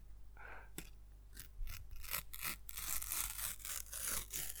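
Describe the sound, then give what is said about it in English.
A sticker packet is torn open slowly and tentatively, giving a quiet, crinkly rasping in short uneven strokes that grows denser toward the end. “You're trying to appeal to the sticker gods. I tried to tear it tentatively.”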